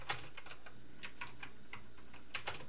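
Faint, sparse keystrokes on a computer keyboard as someone types a web search, scattered irregular clicks over a soft steady hiss.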